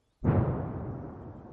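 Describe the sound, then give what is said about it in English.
An artillery shell explodes close by during shelling near Slavyansk: one sudden, fairly quiet blast with a sharp onset that trails off into a low, rumbling decay. “Another shell explodes close by.”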